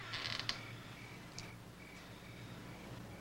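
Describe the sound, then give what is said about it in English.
A door creaking open: a faint, brief creaking burst at the start, then a few soft, scattered squeaks over a quiet background. “steps across the room and opens the door”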